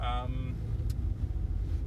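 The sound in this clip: Steady low rumble of a car being driven on a short commute to work, with continuous engine and road noise throughout and a brief voice-like tone near the start.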